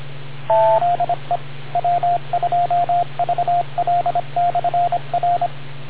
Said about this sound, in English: Let me just make sure I get that beep tone.